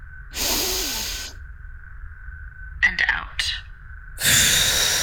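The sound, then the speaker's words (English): Breathing in during a guided breathing exercise: two loud, airy rushes of breath, each about a second long, with a short stretch of talk between them over a steady low hum. “Start by closing your eyes. Focus on your breath. In.”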